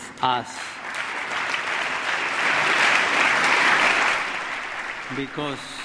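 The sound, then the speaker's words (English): Audience applause, from Republicans and Democrats, during the Pope's speech on immigration: a broad wave of hand clapping swells and holds for several seconds, then fades, with brief speech just before and after it. “I wasn't there, but it sounded like that hand clapping came both from Republicans and Democrats.”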